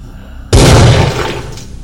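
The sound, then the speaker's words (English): A bolt round fired point-blank into a prisoner's head during an interrogation in a Warhammer 40,000 drama. After a low hum, one sudden, loud blast is followed by a crackling, slowly fading tail. “Subject was administered a bolt round to the cranium, effectively separating his head from his body.”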